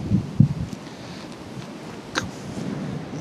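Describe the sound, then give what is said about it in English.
Outdoor wind buffets a camera microphone on a tripod, making a low, rumbling rush. A couple of heavier gust thumps come near the start, and a brief sharper bump follows later. “Wind is doing my head in. I'm sure it's doing your head in.”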